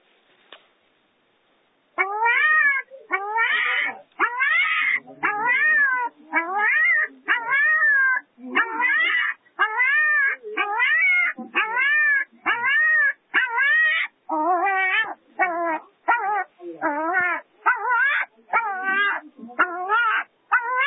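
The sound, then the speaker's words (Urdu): A puppy trapped behind its mother whimpers in pain, giving many high, wavering whining cries in a steady, insistent series. The cries start after a brief quiet and run loud and repetitive, with short gaps between each cry. “یہ کتے کا ایک چھوٹا بچہ ہے جو کہ اپنی ماں کے پیچھے دب گیا ہے اور تکلیف میں مبتلا ہے”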